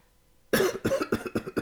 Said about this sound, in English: that's it's just clearing my throat.